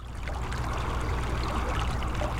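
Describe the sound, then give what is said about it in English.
Treated water from the Berkeley Pit copper mine in Butte rushes through a man-made rock wall into Silver Bow Creek, a continuous full-bodied roar of cascading water with no pause. “We're watching an endless rush of clear water cascade through a man-made rock wall into the stream,”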